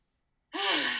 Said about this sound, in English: And bring your hands to your heart. Take a huge inhale for your heart.